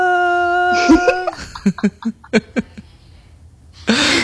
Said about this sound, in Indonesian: Aduh, gak bisa nyanyi deh, batuk dah aku.